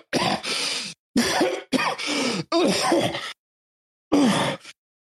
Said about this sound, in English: And I start to like cough some more.